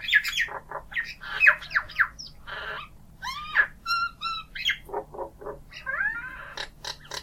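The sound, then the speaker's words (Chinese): An Indian myna calls in a rapid, varied string of harsh squawks, clicks, chirps and whistles. “那个呢叫 Indian minor， 这个 minor 的拼写不一样嘛，但是这个呢中文应该是叫印度八哥吧。”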